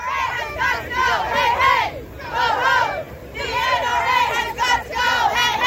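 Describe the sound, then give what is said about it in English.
Demonstrators at an anti-gun rally in Washington, D.C., shouting together in loud, rhythmic bursts of chanting, with short dips in volume between phrases. “That's the sound of demonstrators in D.C. during last Saturday's nationwide anti-gun rallies organized by the group March for Our Lives.”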